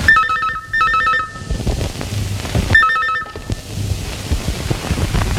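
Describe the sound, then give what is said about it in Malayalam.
A telephone rings on a morning call: three bright, trilling electronic bursts, a quick pair followed by a third after a pause, over a rough, windy background rumble. “അങ്ങനെ ഒരു ദിവസം രാവിലെ വിനയന് ഒരു phone call വന്നു.”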